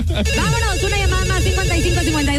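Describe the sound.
Telephone ringtone heard while an outgoing call is placed during a call-in game, a steady musical tone with gliding notes that runs loudly through the whole clip.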